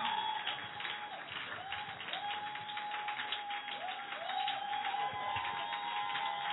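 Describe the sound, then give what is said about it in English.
Applause from a church audience celebrating a woman: steady, dense clapping fills the whole clip at an even level, with a faint sustained tone running beneath it. “You know, come on, put those hands together for her.”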